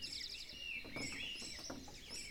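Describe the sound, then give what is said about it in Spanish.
Dawn chorus of many birds singing by a lake after a rainy night: continuous high chirps, tweets and trills overlapping steadily throughout, fairly faint. “cuando inicia imperceptible y luego descaradamente el increíble concierto matutino de las aves que madrugan a saludar al sol.”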